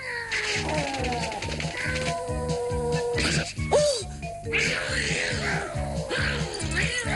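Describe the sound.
A cartoon cat meows and caterwauls in drawn-out, wavering yowls over a steady, rhythmic musical beat that continues throughout.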